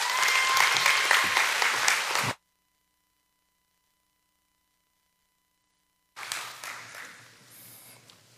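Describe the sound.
A church audience applauds to welcome a guest speaker: a dense burst of clapping, then several seconds of silence, then a second, quieter round of applause.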